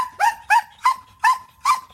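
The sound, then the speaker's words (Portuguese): A trained working dog, used for operational work, barks five times in sharp, evenly spaced bursts. The barks are loud and bright with no other sound between them. “São cães com extrema energia, sempre disponíveis para trabalhar.”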